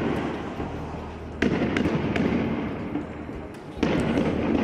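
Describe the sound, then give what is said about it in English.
Tear gas launchers firing as Israeli police disperse Palestinian protesters in Bethlehem: sharp, loud bangs cut through a constant rough wash of crowd noise and commotion, with two clear, prominent reports standing out. “The sounds here of Israeli police firing tear gas at Palestinian protesters in Bethlehem today”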